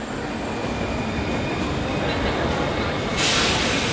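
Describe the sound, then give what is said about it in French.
A train travels on rails as it nears a halt at Stuttgart station: a steady, loud rumble of running noise with a brighter hiss swelling near the end. “Le train fait une halte à la gare de Stuttgart.”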